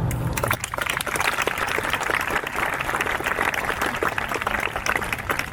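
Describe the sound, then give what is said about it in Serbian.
An audience applauds at the opening of a documentary film festival in Belgrade, clapping for guests who could not attend because of the COVID-19 pandemic. The clapping is loud, dense and steady throughout. “Ja bih hteo da otvorimo festival jednim aplauzom za sve goste koji nisu mogli da dođu zbog pandemije COVID-19.”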